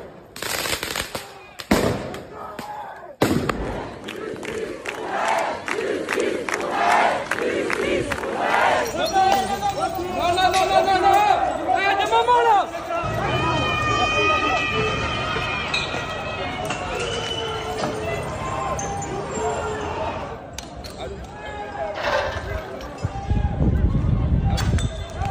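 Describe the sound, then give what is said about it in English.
Protest crowd in the streets of France, with several sharp firecracker-like bangs at the start, then sustained shouting and chanting voices that rise and swell, with more noisy bursts near the end. “They're out in the streets of France protesting.”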